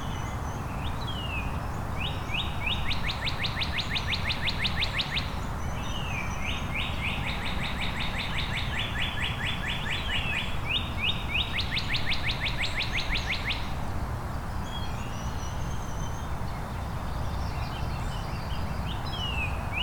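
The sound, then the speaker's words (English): Two male northern cardinals sing loudly, giving repeated bursts of rapid, sharp whistled notes in several long bouts separated by short pauses. The song fades to quieter stretches near the end over a steady low hiss. “It's a very loud northern cardinal.”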